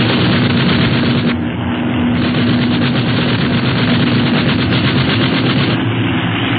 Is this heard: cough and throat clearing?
no